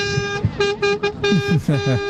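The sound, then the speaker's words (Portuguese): Car horns honk again and again during a street honking rally, with many short and longer toots that break off and restart. People's voices talk through the honking. “Tá aí o buzinar. Pode buzinar, irmão. Pode buzinar.”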